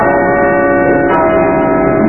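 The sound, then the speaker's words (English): Church bells ringing in a dense, continuous wash of overlapping tones, holding a steady, loud level throughout with no voices. “Oh, church bells. I had forgotten church bells.”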